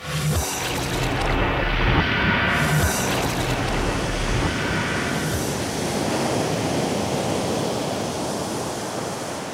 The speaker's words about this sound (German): Die Nordsee, Lebensraum der Extreme. Ebbe und Flut bestimmen das Leben im Wattenmeer.